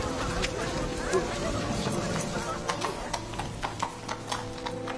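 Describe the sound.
Horses' hooves clip-clop in an uneven rhythm over a dense, busy background, with the sharp hoof strikes growing clearer and more frequent in the second half.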